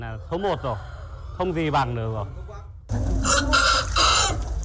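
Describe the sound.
Free-range farm chickens, fed on corn and rice and left to roam, cluck and call in bursts of varied pitch, with people talking over and between the bird sounds.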